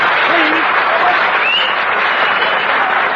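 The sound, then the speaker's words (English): Audience applause after a sung comic performance, a dense, loud wash of clapping that fills the whole stretch without a break. “Now, applause, please.”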